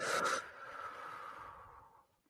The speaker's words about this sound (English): I just want you to take a deep breath in through your nose. Okay. And release all that doesn't serve you through your mouth.